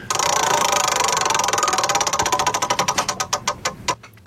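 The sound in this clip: A prize wheel on a game segment spins with loud, rapid clattering ticks. The ticks gradually slow and spread apart until it nearly stops.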